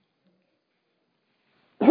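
A single short cough bursts out abruptly at the very end, after near silence.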